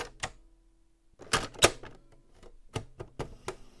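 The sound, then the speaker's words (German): Clicks and plastic clunks of a cassette tape being handled and turned over in a cassette deck, a few sharp knocks at irregular intervals. “You wanna turn the cassette over, rewind it a ways, probably, and start again on side two, thanks.”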